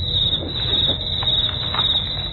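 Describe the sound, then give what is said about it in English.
Insects chirping in a continuous, dense chirr that holds at a steady level from start to finish, with no voices. “Once again, those magic insects.”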